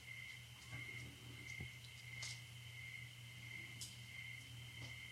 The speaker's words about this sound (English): It's like the sound of the crickets in the background. Now, you can't turn that off